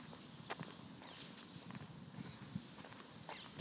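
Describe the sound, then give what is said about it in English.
Footsteps walking along a driveway: a series of soft, faint scuffing steps at an unhurried, fairly even pace, with no voices. “So I'm walking to the end of the drive now.”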